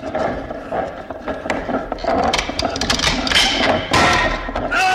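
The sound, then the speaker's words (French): A mechanical sound effect of a time machine being operated in a 1962 radio drama series: dense, continuous whirring, ratcheting and clattering that stays loud throughout, with irregular sharper bursts. “À cet instant, le professeur manipule la machine à voyager dans le temps de son vieil ennemi, feu le professeur Milhok.”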